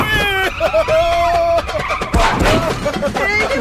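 Tyres squeal as a car swerves back and forth, giving several sharp, wavering screeches over engine noise, with a harsher burst of skidding midway.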